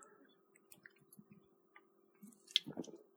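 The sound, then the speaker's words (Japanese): Soft, wet slurping sips of beer, a few small moist clicks and squishes that grow a little fuller near the end, very faint with no talking. “ちょっとビールいただきます。”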